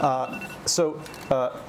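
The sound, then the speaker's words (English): A timer alarm goes off with a few bright chiming electronic bursts in a repeating, uneven rhythm, fairly loud and sounding alone. “Sorry, that's my timer.”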